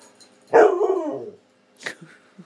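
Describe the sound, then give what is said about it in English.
A dog lets out one loud, drawn-out bark, followed by a brief, softer yip, with quiet around them. “Please excuse my dog.”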